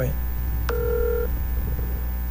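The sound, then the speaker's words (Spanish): An outgoing telephone call ringing, with one short two-tone ring burst about half a second long over a steady low hum, otherwise quiet. “Vamos a llamar a Eudy Jiménez, ya que el estúpido este José Luis no coge el teléfono. A ver si Eudy quiere coger el teléfono.”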